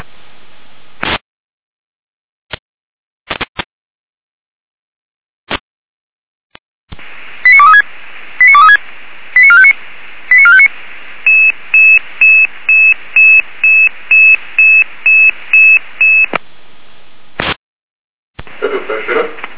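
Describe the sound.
Emergency dispatch alert tones over a radio channel for a daytime fire brigade technical-assistance call-out in Apolda: a few scattered short clicks, then quick warbling tone bursts and a long string of evenly spaced high beeps, ending in static.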